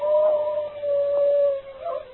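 A wolf howls in one long, steady, mid-pitched note that holds for over a second, then gives a shorter note after a brief pause. There is no talk.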